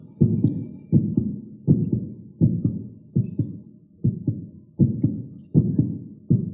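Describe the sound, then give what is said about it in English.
Heartbeat heard as nine steady, low double thumps, each a lub-dub pair, in an even slow rhythm with silence between beats. “That sound is the heartbeat.”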